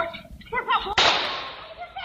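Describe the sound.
A gunshot fired from inside a house: one sharp, loud bang that decays over about a second, preceded by a brief voice.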